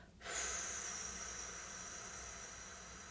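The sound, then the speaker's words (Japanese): A deep, slow exhale during a relaxation breathing exercise: a soft, breathy hiss that starts abruptly, then fades gradually over a few seconds, heard alone and quietly. “はい最後吸ってたっぷり深く吸って吐きましょう”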